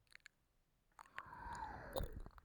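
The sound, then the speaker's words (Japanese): Wet, close mouth sounds of someone nibbling and mouthing a listener's ear, ASMR style: a few soft clicks at first, then a quiet moist smacking stretch with a sharper pop near the end. “ぐっぽり耳をくわえてしゃべり尽くしてあげるね。 じゃあまずこっちの耳いただきまーす。”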